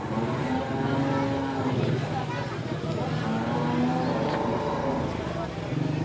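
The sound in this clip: Steady engine drone of an auto rickshaw ride through Jaipur streets: a loud, continuous motor rumble with road noise that holds evenly from start to end.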